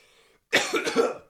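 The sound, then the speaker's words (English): Coughing from a person choking up mid-conversation bursts in abruptly after near-silence: a few rough, throaty hacks in quick succession, heard alone without talk. “Yeah, that choke is symbolic. It's symbolic of the choking of that era. Excuse me for a second. It's only fitting. It's only fitting that that's when I choke up,”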